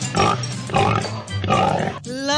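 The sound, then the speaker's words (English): Pig oinking as a sound effect for a piggy bank cash prize: a few rough, grunting oinks in quick succession, loud and separated by short gaps. “How much is in the 2CA Piggy Bank? $622. $622. So, oinks a lot.”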